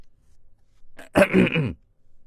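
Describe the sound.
A single short cough or throat-clearing from a man, a brief loud burst standing alone against near silence.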